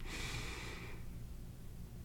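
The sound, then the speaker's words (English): A deep inhale during a guided breathing exercise: a soft, airy draw of breath lasting about a second, then fading into near quiet. “Again, take another deep inhale.”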